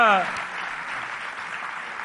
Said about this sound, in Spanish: Un aplauso para los tres, por favor.